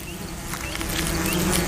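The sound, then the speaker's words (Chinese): Steady buzzing of a yellow-edged hornet, a large hornet about twice the size of a common yellowjacket, as it carries caught flies back to its nest; a low continuous drone that grows slightly louder toward the end. “黄边胡蜂的体型大概是普通黄胡蜂的两倍，把捕来的苍蝇运回蜂巢，对黄边胡蜂来说轻而易举。”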